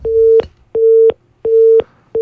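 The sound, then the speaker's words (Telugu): A phone busy tone follows a caller's dropped line: loud, evenly spaced mid-pitched beeps, four in total with the last cut short, each about a third of a second long and separated by equal gaps. “Caller line cut అయినట్టుంది.”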